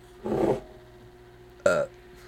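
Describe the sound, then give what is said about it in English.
Burps forced up from acid reflux: a longer, rumbling, voiced belch, then after a pause a second, shorter and sharper burp, both fairly loud against a quiet background. “burp the last of my acid reflux out of my mouth. Or throat.”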